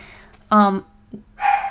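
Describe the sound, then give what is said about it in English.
A dog barks in the background, a few sharp yelps under a person talking. “I don't know if you can hear her barking in the back.”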